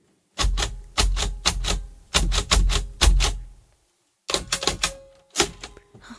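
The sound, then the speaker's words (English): A Braille writer clacks as someone types a name on it, with many sharp mechanical keystrokes in two quick bursts separated by a short pause. “You've brought your Brailler there. Can you write something on it for me? Show me how to write? I want to write my name. You're going to write your name.”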